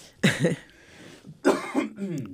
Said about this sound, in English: Excuse me. I still have this cough.